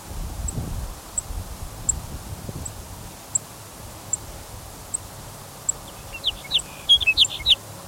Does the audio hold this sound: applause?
no

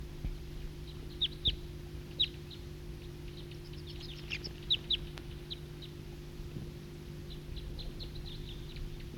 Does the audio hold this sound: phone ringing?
no

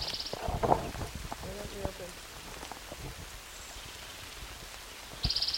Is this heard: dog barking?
no

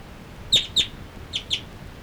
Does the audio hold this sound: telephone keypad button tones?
no

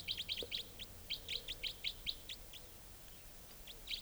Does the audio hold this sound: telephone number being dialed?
no

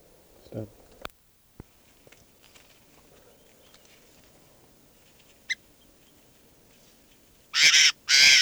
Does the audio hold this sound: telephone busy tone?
no

